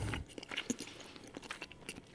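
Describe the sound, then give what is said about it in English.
Crunchy chewing of food, with a quick run of crisp bites and mouth clicks. The sound is faint and close, with short uneven bursts over about two seconds. “Sorry. Just chewing and chewing.”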